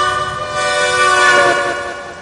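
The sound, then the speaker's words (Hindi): A steam train engine whistle sounds in one loud, sustained blast of steady pitch, with a low rumble of the train beneath it. “तबले engine सीटी मरलस”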